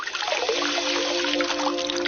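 Warm water poured onto safflower in a bowl, a steady, continuous trickle and splash of liquid at an even level throughout, with no voices.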